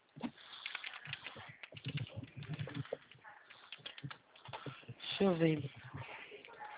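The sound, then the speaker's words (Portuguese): Computer keyboard keys click as figures are entered, with scattered taps running under a person talking throughout. “Aqui tudo você tem que digitar. Se não digitar, não dá certo.”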